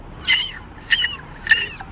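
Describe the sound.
A person imitates a seagull's mating call with three short, high, squawking cries, evenly spaced and fairly loud, with nothing else behind them.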